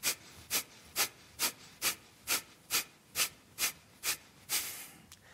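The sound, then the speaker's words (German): Rapid breathing in and out during a yoga breathing exercise: a long run of quick, evenly spaced, airy huffs, soft and steady, with no talking. “dann kannst du ein paar Mal schnell ein- und ausatmen, so wie ich es jetzt mache.”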